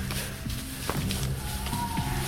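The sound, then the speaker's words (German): Soft footsteps of people creeping crouched and quietly toward a front door: a few muffled steps over a low, steady background. “Wir laufen jetzt geduckt da erstmal rüber zur Haustür. Und zwar leise. Und los!”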